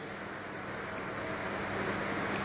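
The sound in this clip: Traffic noise from vehicles passing outside: a steady, even roadway rumble and hiss that swells slightly toward the end, with no talking.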